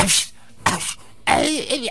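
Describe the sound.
A person's voice imitates a sick animal with the flu sneezing, making three rough, breathy bursts. The last burst is longest and carries a wavering, moaning tone.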